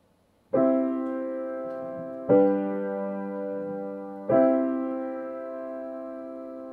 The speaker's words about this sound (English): we have chords that are constructed of a few notes that together make harmony. So, for example,